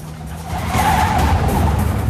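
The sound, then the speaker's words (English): A car speeding during a night chase, its engine roaring louder after a moment while the tires squeal and skid in a sustained, harsh screech. “Thord is speeding along at night, with Jean chasing close behind. Jean overtakes and cuts him off.”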